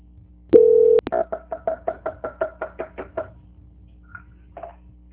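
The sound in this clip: A steady telephone tone, then a rapid, even string of about a dozen short beeps on the line as a bank caller is transferred to quality control; a couple of faint blips follow, with no talking.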